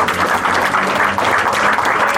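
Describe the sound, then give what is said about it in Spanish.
Audience applause at a parish community gathering, a dense, steady wash of many hands clapping that holds at an even level for about two seconds with no voices over it. “Eso quiero yo pedir un aplauso.”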